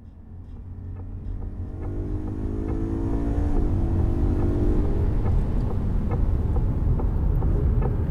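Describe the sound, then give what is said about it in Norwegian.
A car engine roars steadily during a police car chase on the E18 motorway, its loud droning growl building slightly in intensity and holding strong, with rushing wind noise over it and no voices. “hørte et lite klipp av denne biljakten”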